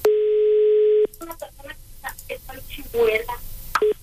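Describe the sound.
A telephone call rings unanswered: a long, steady tone holds for about a second. People then talk over it while short bursts of the tone return beneath the voices.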